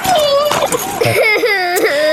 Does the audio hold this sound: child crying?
yes